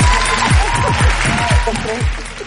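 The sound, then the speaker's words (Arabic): Applause for a listener winning a call-in contest on a radio show: dense, steady clapping that stays loud throughout, with voices mixed in. “بس خلاص خذي صفقه يلا”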